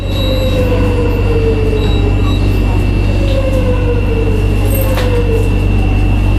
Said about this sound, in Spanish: Un cierre de metro. Ahí está, se abren las puertas, gente entra. Este es el metro moderno.